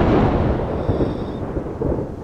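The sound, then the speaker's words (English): Rolling thunder as rain begins: a heavy, low rumble sustained throughout with a steady hiss, loud and with no voices. “it starts to rain”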